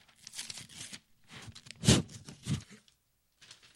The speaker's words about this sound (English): Let's open the envelope.